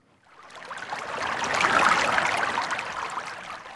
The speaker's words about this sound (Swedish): Jag befinner mig i Haddom och här rinner inte Haddombäcken men Hardonbäcken, en ska vi säga inom citationstecken biflod till Lovisa å.